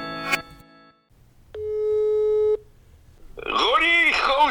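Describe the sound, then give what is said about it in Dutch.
A telephone ringing tone on an outgoing call: one steady, mid-pitched, level tone lasting about a second, with quiet clicks before it and a voice starting to talk right after. “Anders bellen we hem even.”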